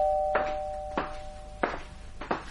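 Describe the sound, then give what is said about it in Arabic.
A doorbell is rung insistently and over and over: a steady buzzing tone runs throughout, broken by four sharp, evenly spaced bursts that are louder than the rest. “ايه ده ده مين المجنون ده اللي بيرن الجرس بالشكل ده؟”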